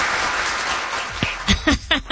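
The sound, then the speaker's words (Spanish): Applause from an audience: a dense spell of clapping that thins out after about a second, giving way to a few short bursts of voices. “Aplausos, aplausos.”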